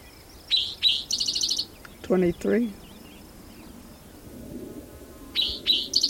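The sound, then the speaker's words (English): Bird song: bursts of high, sharp chirps and trills at the start and again at the end, with a lower call in the middle, over a faint, steady background hiss. “There's another bird singing nearby.”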